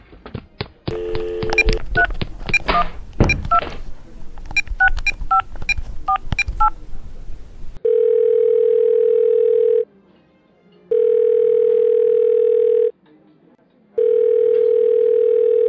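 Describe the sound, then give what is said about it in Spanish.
A telephone being dialed, a quick irregular run of bright keypad beeps, then three long, steady, even tones separated by short silent pauses. “Voy a llamar a Pablo.”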